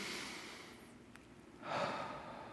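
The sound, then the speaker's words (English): A deep breath taken slowly, a soft airy hiss that swells into a louder, fuller rush of air near the end, heard alone with no talking. “So everyone, just take a deep breath with me.”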